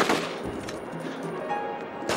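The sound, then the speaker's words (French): Pump-action shotgun fire in a video game: a few sharp, booming blasts stand out from a steady, busy background of game noise. “Parce que le feeling du fusil à pompe, il est incroyable.”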